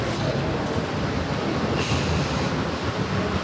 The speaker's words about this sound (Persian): صدایی که میشنوید صدای هواکش ایستگاه راه آهن رجوعه.